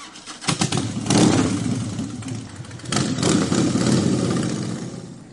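A motorcycle engine starts at a bike night street event and catches into a loud, rough rumble. It revs in two strong surges with a slight dip between, then eases off toward the end.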